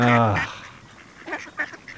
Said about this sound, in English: We can just go walk around the pond. But all I can see are ducks.